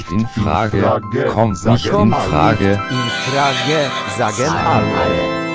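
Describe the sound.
A white horse neighs in a long run of shrill, wavering whinnies that rise and fall in quick bursts, loud and continuous with only brief gaps.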